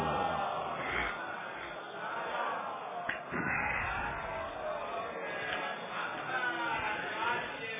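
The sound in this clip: An audience at a Ramadan religious gathering loudly recites the salawat blessing on Muhammad and his family in unison, a dense chorus of voices sustained throughout.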